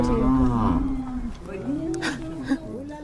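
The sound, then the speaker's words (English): Cattle low as a few cows graze on a grassy hill among old tombstones and crosses after a midday rain. A long, deep moo comes first, then shorter, rising and falling calls follow at moderate loudness. “Three grazing cows. You pause to watch them for a few moments, and then keep going.”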